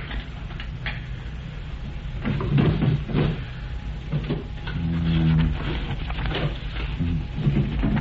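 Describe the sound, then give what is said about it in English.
A desk is unlocked with a key and opened, giving muffled wooden clunks and rattles. A few short thuds come in two clusters against a dull, steady background. “Here's the key. Open Harry's desk.”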